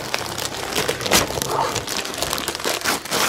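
Gift wrap crinkling as a present is unwrapped from a stocking, with continuous paper rustling and several louder crackling bursts throughout.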